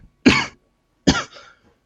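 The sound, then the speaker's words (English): A voice performs two short, harsh coughs for a character whose throat is being stepped on; the second cough trails into a weaker, raspy tail. “He coughs up a little bit as you step down on his throat”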